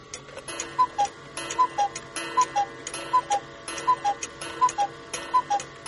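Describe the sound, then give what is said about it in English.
A clock with a singing yellow bird ticks steadily and faintly while the bird gives seven evenly timed pairs of short, high whistled notes in a regular, cheerful rhythm. “Did you hear how happy he was? His singing was beautiful. Sure was. I went to the library today, but I couldn't find any clocks that had a yellow bird like yours does.”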